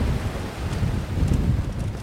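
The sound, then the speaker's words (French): Wind gusts through the streets as a low, buffeting rumble against the microphone. It is moderately loud and rises and falls in uneven surges. “Courant d'air dans les rues là.”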